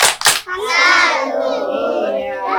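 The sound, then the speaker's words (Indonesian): Children clap in a tepuk salut chant: two sharp hand claps at the start, then young voices chanting in unison. “Terima kasih anak bunda. Tepuk salut. Salut, salut. Salut, salut.”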